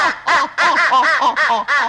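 Ducks quacking in a loud, rapid run of many nasal, harsh calls that overlap almost without pause, as if a flock is urging each other to fly south.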